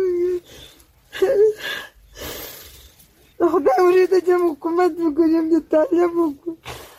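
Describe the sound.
A 42-year-old woman in Uruzgan, Afghanistan, cries in grief for her two sons, killed on one day in fighting between Afghan soldiers and the Taliban; breaking, wavering sobbing cries come in halting bursts with short gaps, loud and raw.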